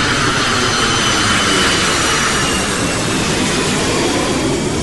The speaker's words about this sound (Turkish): Uçak. Doğru.